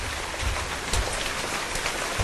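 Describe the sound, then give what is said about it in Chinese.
Heavy rain, with hail, pours down on an oil drilling crew's site around the rig, making a dense, steady hiss with scattered harder impacts throughout. “大雨侵吞的钢铁1205钻井队的施工现场，冰雹威胁着井架甩钻杆施工作业的队员们。”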